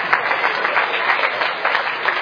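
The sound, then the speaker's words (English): Audience applause for participants who have just finished on stage, a steady, fairly loud patter of many hands with a few brighter peaks, muffled and lacking high treble. “All right, give them a round of applause.”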